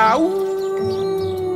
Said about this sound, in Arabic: واضح ان في ديب هنا